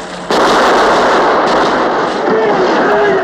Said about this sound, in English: Use your pistol and shoot him down!